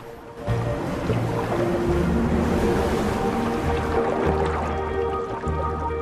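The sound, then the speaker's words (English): Churning, splashing water as walruses thrash about at the surface of briny water during mating, a dense continuous wash with steady low tones underneath. “Clouds of air bubbles form as their contact becomes more vigorous in the briny water. They thrash about at the surface.”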